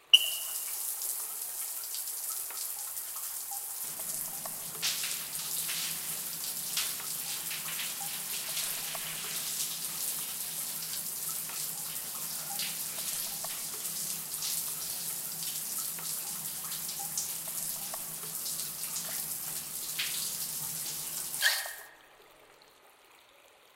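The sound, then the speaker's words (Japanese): Water runs steadily while oil is rinsed off a body, giving a soft, continuous splashing hiss with small irregular spatters that stops abruptly near the end. No one speaks. “体にもしっかりオイルを塗り込めましたし、残りを 洗い流しちゃいましょ”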